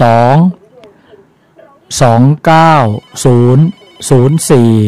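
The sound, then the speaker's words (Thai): A telephone rings as a listener calls in to a phone-in line, giving a loud burst of tones, a quiet pause of about a second and a half, then several more short ringing bursts in quick succession. “มีผู้ฟังโทรมาแล้วครับ”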